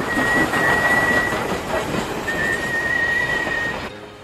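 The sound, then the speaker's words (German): An intercity train pulls in with a continuous loud rumble, and a thin, steady high squeal of wheels rides over it in two long stretches. The noise cuts off sharply near the end. “Pünktlich wie jeden Sonntag um 21 Uhr fährt der Intercity Pythagoras ein.”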